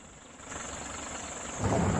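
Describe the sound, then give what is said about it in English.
A safari vehicle trundles along a worn dirt track in sparse end-of-dry-season bush. Its low, rumbling engine drone is faint at first and swells slightly louder toward the end, with no talking. “The vehicle trundles on along a worn track.”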